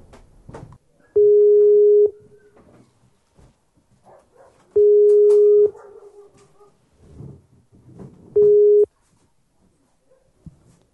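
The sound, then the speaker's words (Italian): A Skype call connecting tone: three steady mid-pitched beeps over faint background noise, the first two about a second long and the last one shorter. “Ok, facciamo il collegamento in Skype.”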